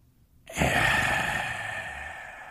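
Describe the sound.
A deep breath drawn in during a guided visualization: one long, airy inhale that starts sharply after a moment of silence and then holds a loud, breathy rush to the end.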